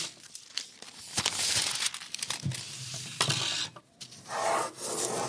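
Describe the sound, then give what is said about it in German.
Pen or pencil scratching on paper as an eleven-storey high-rise is sketched: many faint, rasping strokes of varying length, broken by brief pauses. “Pablo zeichnet sein 11-stöckiges Hochhaus.”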